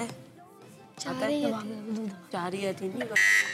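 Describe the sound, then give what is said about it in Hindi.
A quiz-show buzzer pressed by a school team: one short, loud electronic tone that sounds at the end, after people talk. “Buzzer बजाती है excellence model school ने।”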